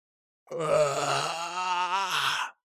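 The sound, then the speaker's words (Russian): A man howls in pain while lifting his body, a single drawn-out voiced cry of about two seconds, loud and alone, holding a steady pitch before dipping slightly near the end. “Завопил я, поднимая туловище.”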